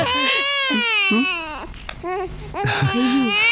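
A newborn baby boy cries loudly in high, wailing bursts separated by short breaths, the cries rising and falling in pitch.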